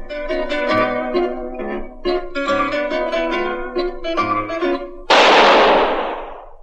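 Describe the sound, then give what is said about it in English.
A single gunshot sound effect in a radio drama about Harry Lime, following zither music. Several seconds of plucked, ringing melody end in one sharp, loud crack that decays into a fading roar. “Was the shot that killed Harry Lime.”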